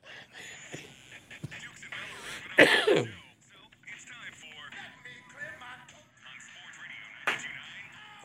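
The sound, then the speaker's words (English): Throat clearing: one harsh, raspy burst rises out of low, muffled talk, and a smaller rough sound follows a few seconds later. “Let's get out of here and clear our throat.”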